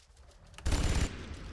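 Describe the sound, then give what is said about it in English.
Rapid burst of Vulcan gun fire in a video game: a dense stream of fast shots with heavy low-end thump that starts abruptly, holds loud for about half a second, then falls to a lower rumble. “Let's get out my Vulcan. Welcome, Midigonic Lift. Weapon ready. Brace it.”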